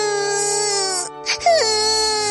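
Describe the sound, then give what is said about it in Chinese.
A child cries in a sustained, high, wailing tone. A brief catch breaks it, then the wail resumes with a quick falling inflection. “欣欣哭了起来。”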